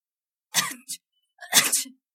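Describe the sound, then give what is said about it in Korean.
Two sneezes from a pollen allergy in spring, each a sharp, breathy burst. The first is followed by a brief trailing catch of breath. A short silence separates them, and the second burst runs slightly longer. “알레르기때문에재채기가나오는것같아요 성미씨알레르기있어요 네봄이되면꽃가루때문에재채기가나요”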